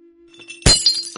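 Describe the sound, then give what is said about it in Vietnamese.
Behind a curtain, something crashes and breaks with a loud, sudden, sharp shattering impact, followed by a few bright clinking fragments as the breakage settles. “Sau màn trướng có tiếng đổ vỡ chói tai, khiến ai nấy đều giật thót.”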